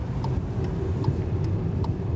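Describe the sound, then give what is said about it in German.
A car driving on the road out of Málaga, heading east toward Almería: a steady low engine and road rumble with a soft, regular ticking that repeats about five times. “Mit dem Auto geht es raus aus Malaga, 2 Stunden Richtung Osten in die Provinz Almería.”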